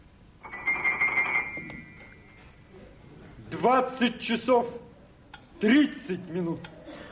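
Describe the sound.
A telephone rings in a short buzzing burst near the start, after which people talk.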